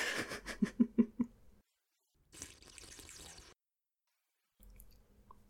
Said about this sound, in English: Let me just take some of this soup before it gets cold. Oh, this is good soup.